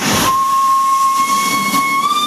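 A coal-fired steam train on the line to Saint-Agrève sounds a long, steady whistle as it sets off, the shrill tone held over a loud wash of hissing steam to the end.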